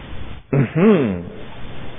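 A woman entering a room clears her throat once with a short, voiced 'ahem' whose pitch wavers, with no talk around it.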